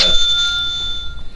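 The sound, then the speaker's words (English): A sound machine rings with a brief, sustained bell-like tone, bright and steady, lasting just over a second. “Guys, that's the sound of a sound machine Christina remembered to bring to the recording.”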